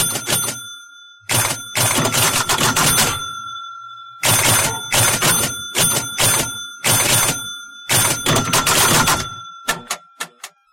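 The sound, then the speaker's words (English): A pinball machine's bell unit and chime unit, the devices behind most pinball sounds from 1933 to 1978, ring loudly in several rapid bursts of struck metallic dings with sustained bright tones, ending in a few isolated single strikes. “So these two devices that are on the screen, the bell unit and the chime unit, created almost every pinball sound from 1933 to 1978.”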